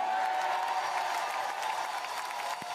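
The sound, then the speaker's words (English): A crowd in Guadalupe, Nuevo León, cheers and claps at a public event, a continuous, dense roar of clapping and voices that holds at a steady level throughout. “The best part of the video is that the people of Guadalupe cheered for the next 8 minutes.”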